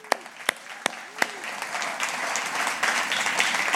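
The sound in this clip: Audience applause welcoming guests onto the stage at a morning church service with baby dedications. A few sharp claps ring out first, then the clapping swells into steady, sustained applause.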